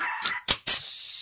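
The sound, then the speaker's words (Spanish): A small, nervous dog barks in three sharp, high yaps in quick succession. The barks are fairly loud and come with no talk. “Ese perrito neurótico.”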